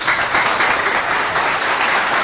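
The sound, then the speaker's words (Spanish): An audience applauds the Lord during a church service, giving a steady, moderately loud patter of many hands clapping throughout, with no clear breaks. “Podemos dar un aplauso al Señor.”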